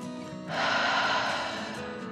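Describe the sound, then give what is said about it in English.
A slow, deep breath, heard as a long soft airy rush that swells in after a quiet start and slowly eases off, with no voice over it. “Blanca took another dragon breath, calming her body in and out.”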